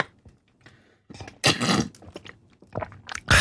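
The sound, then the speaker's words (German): Sipping and swallowing from a drink during a hot-weather drinking break: a few short, wet mouth sounds and gulps, with a louder burst near the middle and another at the very end. “nochmal einen Schluck”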